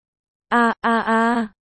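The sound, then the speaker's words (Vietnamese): A single voice imitates the miserable groaning of people attacked by fourth-tier monster beasts: a loud, voiced moan in two parts, a short burst followed by a longer, steadier groan. “A, thanh âm kêu rên thảm thiết của những kẻ dưới linh nguyên bị yêu thú tứ giai vây công phối hợp cùng thế tấn công kiêm áp chế của Nam Việt.”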